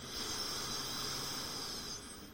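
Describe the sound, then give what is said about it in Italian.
Inhalation through the left nostril during an alternate-nostril breathing exercise: a steady, airy hiss of drawn breath lasting about two seconds, even in loudness and easing slightly at the end, with no talk. “chiudo destra apnea, apro sinistra espiro, apnea, inspiro sinistra”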